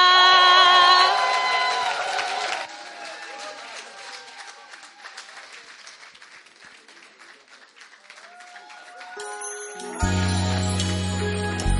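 Applause from a church audience welcoming a singer: a dense wash of many hands clapping, loudest at the start, thinning and softening through the middle, then swelling again near the end.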